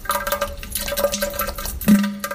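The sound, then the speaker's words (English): A toilet flushing, with rushing, gurgling water over a steady tonal hum, fairly loud and continuous throughout, with a brief stronger surge near the end. “Let's all flush one out for Juan tonight.”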